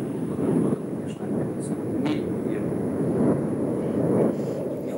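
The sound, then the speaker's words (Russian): Airplanes flying overhead make a constant low rumbling roar that fills a degraded remote call line, steady throughout with faint muffled murmurs. “Да, видимо, у вас там пролетают самолеты, и что-то у нас со звуком не очень хорошо.”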